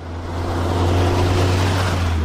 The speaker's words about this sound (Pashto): دا د باغران ولسوالۍ ته پر غځېدلې کنډ او کپر سړک د روان هغه کومک لرونکي بایپور موټر ژغ دی